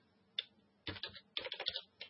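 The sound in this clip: Computer keyboard typing as a method name is entered in code, heard as one early keystroke followed by three quiet clusters of quick, irregular clicks.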